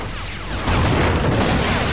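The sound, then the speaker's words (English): A pipe explodes with a dense, loud roar that swells abruptly partway through and stays sustained to the end. “Oh, I got it. It's gonna blow. Alex and Kelly jump to safety as the pipe explodes, sending two of Gundar's men flying.”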